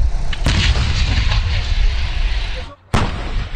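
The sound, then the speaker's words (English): Artillery shelling of the Gaza Strip amid incoming rocket fire: two sharp, loud blasts over a continuous rumbling roar, the noise dipping briefly just before the second blast. “The Israeli military is shelling the Gaza Strip amid incoming rocket fire.”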